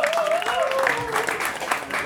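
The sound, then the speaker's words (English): Audience applause at a live event, a dense, steady clatter of many hands clapping that holds at an even loudness for about two seconds. “Clap your hands for Father Better and Joe Kilgallen.”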